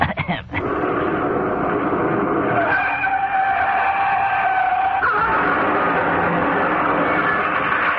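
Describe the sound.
A voice imitates a car skidding, producing a loud, continuous screeching and hissing noise that runs for about eight seconds, with its pitch shifting noticeably around the third second.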